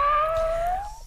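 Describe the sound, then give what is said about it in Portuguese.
A single drawn-out cat meow, tonal and clear, its pitch rising gently through the call before it softens and trails off, heard alone. “Fiz aniversário dia 27. Manda um miado pra mim.”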